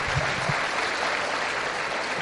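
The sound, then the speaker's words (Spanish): Steady applause from a Spanish-speaking audience welcoming a volunteer to the front, a dense, continuous crackle of many hands that holds level throughout. “Aplauso a Sonia.”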